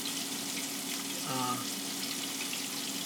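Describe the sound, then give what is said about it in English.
Food still sizzling in a very hot Dutch oven taken off the heat, a steady, faint frying hiss running throughout, with a brief voice near the middle. “it's about, and you hear it still frying, and it's not even on. The Dutch oven's so hot,”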